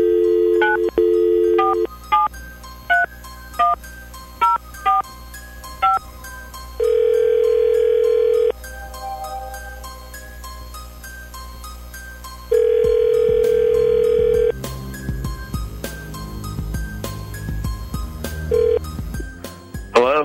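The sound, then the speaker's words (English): Telephone dial tone, then a quick run of about eight touch-tone keypad beeps as a number is dialed, followed by two long, steady ringing tones separated by a quiet gap. “let's figure this out right now. Dialing at random.”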